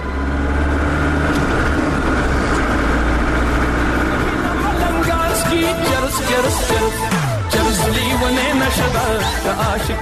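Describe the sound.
A car driven fast, its engine giving a loud, sustained roar with tones that keep shifting throughout.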